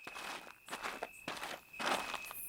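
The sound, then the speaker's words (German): Footsteps walking and trotting along a street: a steady run of scuffing steps in clustered bursts, separated by short pauses. “Ich also gehe die Straße entlang, trabe, laufe immer wieder, bis ich endlich da.”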